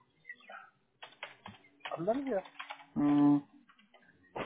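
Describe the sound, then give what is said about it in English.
Sharp clicks from a computer keyboard or mouse while trying to accept subscription terms on screen come in a few brief bursts, mixed with people talking. “I'm clicking the please click here to accept the subscription terms, but nothing's coming up.”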